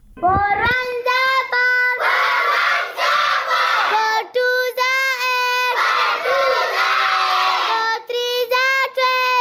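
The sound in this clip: Schoolchildren's voices at community schools in Mohmand: many young voices chant together in loud, rhythmic phrases, separated by brief pauses and breaths.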